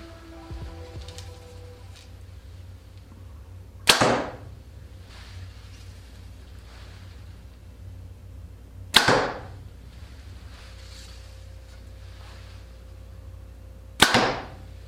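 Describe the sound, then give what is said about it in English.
Arrows shot from a Hoyt Ventum 30 compound bow: three sharp, bright release snaps with a quick whooshing tail, spaced about five seconds apart over a low steady hum. “I hope you had as much fun as I did shooting the new Ventum 30 from Hoyt. This bow was a great shooting bow.”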